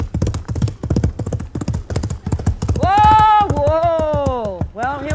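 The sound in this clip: Clip-clop of a horse's hooves as it is ridden: many quick, even beats, loud and close together, with a long tonal cry sounding over them midway.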